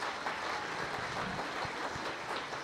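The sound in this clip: Audience applause at a church talk on marriage and family, given for a group of young people as they sit down. Steady, rather quiet clapping from many hands keeps an even level throughout.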